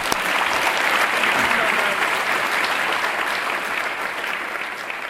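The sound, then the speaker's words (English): An audience applauds to welcome a speaker, with thick, continuous clapping that stays strong before easing off slightly near the end. “So please give me a hand in welcoming Dr. Lubomirsky.”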